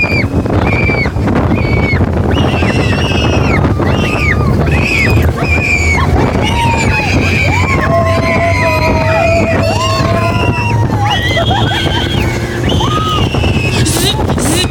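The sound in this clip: Loud, continuous theme park thrill ride audio from a car-themed test track attraction: a steady rushing roar with wind noise, overlaid by high whistling tones that slide up and down throughout.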